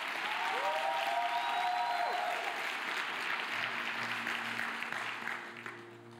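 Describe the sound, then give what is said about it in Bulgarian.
A church audience applauding during a sermon, a dense, steady patter of many hands clapping at moderate level that thins and fades toward the end. “Хайде, ръкопляски на Бога, ако вярваш.”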